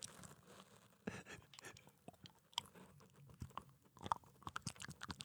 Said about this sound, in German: Jetzt lege ich mir ein Stück Rittersport auf meine Zunge.